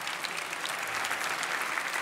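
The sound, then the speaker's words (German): Audience applause for a band that has just played a Viennese song: dense, steady clapping that holds at an even loudness for the whole stretch, with no voices. “Das ist euer Applaus.”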